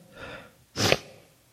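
A single sneeze from someone with allergies: a soft, breathy intake of air, then a brief gap and one sharp, loud burst of breath. No voices.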